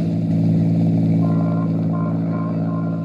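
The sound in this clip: A homicide-squad sedan is driving, giving a steady, continuous low engine drone with a constant hum that holds even throughout, with no clear gear changes or revving.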